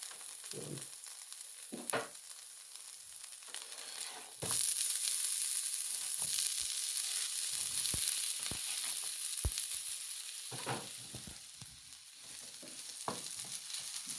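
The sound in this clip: Peppers frying in a pan: a continuous bright sizzle that grows louder about a third of the way through, with occasional soft knocks and scrapes from stirring.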